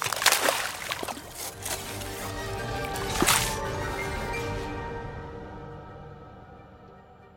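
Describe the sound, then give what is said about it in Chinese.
A smoking glass vessel smashes on the floor and thick green liquid spreads across it: a few sharp bursts, then wet sloshing and dripping that gradually fades out. “一瓶冒着烟的玻璃杯还是摔在地上了。 浓浓的绿色液体像是有生命似的朝溜溜的脚边流过。”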